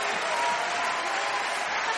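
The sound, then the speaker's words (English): An audience applauds in church with steady, dense clapping for about two seconds. The level stays even and no voices stand out. “really applaud the Lord in this place tonight. Come on. For all that he's done. For all he's going to do.”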